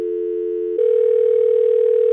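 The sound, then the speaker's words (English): A telephone line tone plays while a call to a friend connects: a steady dual hum for under a second, then a slightly higher continuous ringing tone that holds loud and alone to the end. “Here is our phone a friend segment.”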